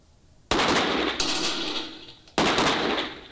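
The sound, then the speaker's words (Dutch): Loud gunfire from arrest fire in a police shooting test, with shots aimed at the legs of a target: three sharp blasts, each with a long ringing decay, the second softer than the others. “dan gaan we door naar het volgende onderdeel van de schiettoets. Dat is dit. Aanhoudingsvuur.”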